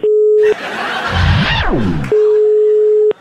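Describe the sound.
Ringing tone of an outgoing telephone call: a steady, mid-pitched electronic tone sounds twice, a short burst and then a longer one, with a louder warbling sound that sweeps downward filling the gap between them.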